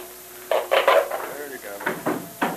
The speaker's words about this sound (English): All right, boys, pry up that lid.